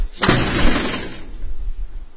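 An office door bangs shut at a company that has closed down, as the person inside stops answering. One loud, sharp impact rings out and slowly fades.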